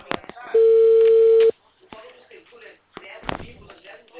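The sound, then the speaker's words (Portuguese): A telephone line rings as a call is placed: one steady, mid-pitched ringback tone lasting about a second, loud and even, followed by quieter muffled sounds. “Só tá fazendo uma ligação rapidinho aqui.”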